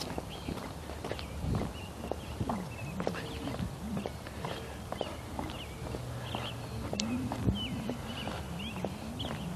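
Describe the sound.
Footsteps of a couple out walking, a steady run of many soft, irregular steps over a continuous outdoor background, with no talk.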